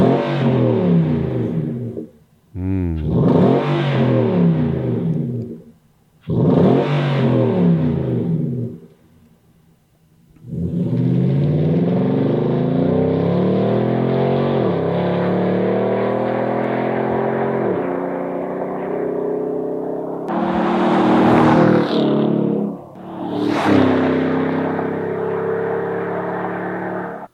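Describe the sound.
Car engine revving through a Borla exhaust: a few short, loud throttle blips with rising and falling pitch, then a long sustained rev, followed by two more bursts.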